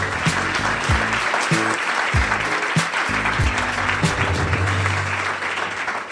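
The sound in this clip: Audience applause welcoming a guest onto a talk show: dense, steady clapping that stays loud for the whole stretch, with a low rumbling undertone beneath the hands.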